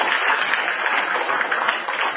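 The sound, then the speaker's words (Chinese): Audience applause at a Christian testimony gathering, a dense, even wash of clapping that continues at a loud, steady level throughout. “谢谢这位姐妹的见证，我们鼓掌欢迎今天最后一位姐妹来为主见证。”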